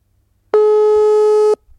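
A telephone busy signal sounds while calling someone back: one loud, steady electronic tone lasting about a second, then silence with faint low rumble.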